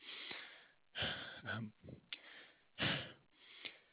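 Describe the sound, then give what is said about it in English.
Heavy, audible breaths from a speaker pausing to calm down in a distressed moment: two loud airy breaths separated by short, shaky voiced sighs. “Sorry, deep breath.”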